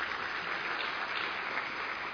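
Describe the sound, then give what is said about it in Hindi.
Audience applause at a conference in India, a steady, even wash of many people clapping that stays at a constant level throughout. “Tali बजाइए।”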